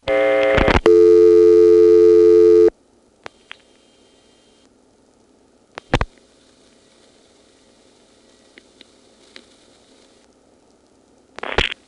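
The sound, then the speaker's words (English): A call progress tone from the Harrisonburg exchange's tone plant on a long-distance call sounds loud and steady for about two and a half seconds, then cuts off. A few faint clicks and a low hum follow. “here's a call to Harrisonburg. I just dialed 1 plus a 434 number. The tone plant in Harrisonburg is actually the same type as in Elizabeth City.”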